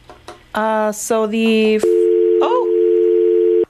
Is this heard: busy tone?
yes